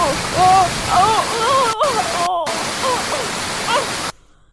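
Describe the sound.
Water sprays loudly from plumbing during a DIY faucet repair, a steady rushing hiss broken by two brief gaps before it stops abruptly, while people talk over it.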